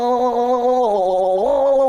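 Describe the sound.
Choir singing while gargling water, head tilted upward toward a close microphone: sustained sung notes with a bubbly, wavering tremble that dip in pitch midway and then rise again, loud throughout.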